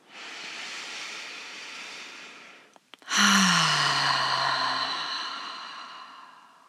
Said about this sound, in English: Nice cleansing inhalation through the nose and release it completely through the mouth.